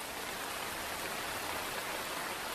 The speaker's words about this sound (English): Above the canopy, the rain is torrential.